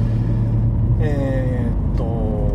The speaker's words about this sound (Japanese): 帰りの仕事帰りの車の中で撮っているんですけれども